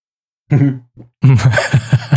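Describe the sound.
Gruff throat clearing and coughing after milk drunk through a straw got stuck in the throat. A brief silence is followed by a couple of grunting clears, then a run of rough, rhythmic coughs.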